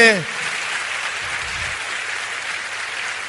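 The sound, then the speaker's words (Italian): Crowd applause at a political rally for a national civic movement begins as a voice trails off, then settles into a steady, even wash of clapping. “prendetevi un grande applauso, perché l'applauso è per voi, non è per me.”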